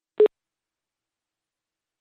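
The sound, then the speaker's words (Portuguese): A single short electronic telephone beep sounds as a call drops, followed by silence. “caiu a ligação com o agente Salvador Malheiro, o vice-presidente do PSD”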